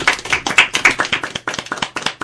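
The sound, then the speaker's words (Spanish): An audience applauds a poet with brisk, loud clapping from several pairs of hands, dense and uneven, continuing without pause. “¿Le damos un aplauso al poeta?”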